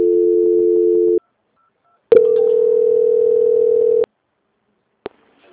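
Telephone line tones during a call transfer: a steady low electronic tone, a pause, then a second sustained tone that cuts off, followed by a single sharp click.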